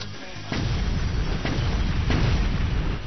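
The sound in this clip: Grenades explode during a video game battle, a few deep booming bursts rising out of a constant dense low rumble of combat noise, with no voices heard.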